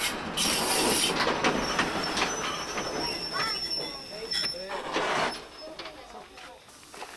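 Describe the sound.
A coal-fired steam locomotive train rolls past green wheat fields with a loud, steady rumble of wheels on rails, broken by high metallic wheel squeals that rise and fade along the way.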